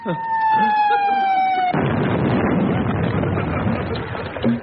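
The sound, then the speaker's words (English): Cannon fire for a 21-gun salute for the Prime Minister: a loud, steady high tone drifting slightly downward, then a heavy, sustained blast-like roar lasting several seconds. “I say, Arthur, Arthur. Why do you suppose they're firing like that? 21-gun salute for the Prime Minister.”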